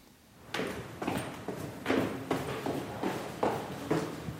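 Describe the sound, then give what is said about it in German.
Footsteps walk through the hallway of an apartment building and down a few steps, a steady series of many soft thuds at an even pace, moderately quiet over a light background hiss. “Es geht durch den Flur des Wohnhauses in der Lehmbachstraße 4, ein paar Stufen nach unten und durch den ruhigen Hinterhof ins Atelier 3.”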